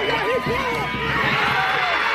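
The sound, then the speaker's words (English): A crowd at a Florida high school football game roars as a girl throws a touchdown pass. The cheering is loud and sustained throughout, with a voice calling out over it at the start. “That's the sound of Holly Kneeher becoming, as far as we know, the first girl in the history of Florida high school football to throw a touchdown pass”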